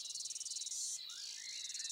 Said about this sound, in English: The grasshoppers sing and dance.